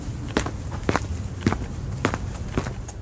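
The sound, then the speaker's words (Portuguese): Light, quick footsteps hurrying along a street, a steady series of evenly spaced soft steps over a constant background hiss. “E teve a impressão de que na rua uns passos leves se afastavam apressadamente.”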